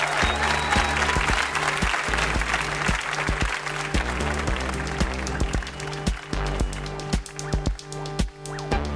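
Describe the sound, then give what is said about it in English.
Audience applause for a guest on a trivia quiz show, a dense, steady clatter of many hands that holds throughout and thins slightly near the end. “Big hand for Jad Abumrad.”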